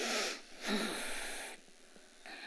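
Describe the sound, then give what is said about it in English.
Airy deep breathing from a group inhaling and exhaling together during a Christian yoga prayer session, heard as a few long soft rushes of breath with brief pauses between them. “So one more time, deep breath.”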